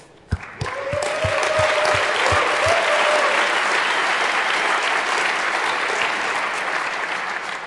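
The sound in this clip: Audience applause for game show hosts on stage begins with a few distinct claps, then swells into loud, steady, sustained clapping that continues to the end.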